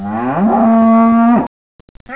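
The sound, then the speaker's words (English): A cow on a cow farm gives one long, loud moo that rises at the start, holds a steady low tone and then cuts off sharply. A few faint clicks follow, and another sound begins at the very end. “Today, we're taking you on scene to a cow farm, where we have cows, apparently.”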